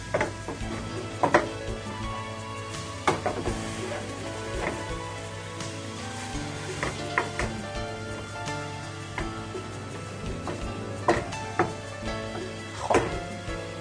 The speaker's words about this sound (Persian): خب انقدر برای تفت دادن این مواد کافیه. چرا؟ چون که اولا قارچمون دیگه زیادی تفت میخوره و زیادی آب میشه و اینکه فلفل دلمامون هم به اندازه کافی تفت خورده